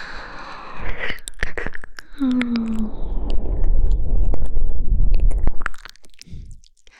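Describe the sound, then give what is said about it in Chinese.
ASMR ear licking: wet tongue and mouth sounds close in the ear, with many squishy smacks and clicks, plus a short voiced hum partway through. “被妈妈的舌头侵入你的耳穴。”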